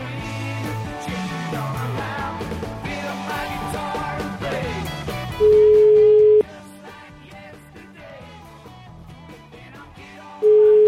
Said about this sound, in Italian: chiamiamolo, dai ragazzi, chiamiamolo, dai. Fatemi il numero